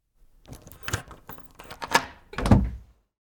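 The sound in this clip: A door is unlocked with a few soft clicks and knocks of the lock mechanism. A heavier thunk closes the sequence, and the sounds are quiet with no voices.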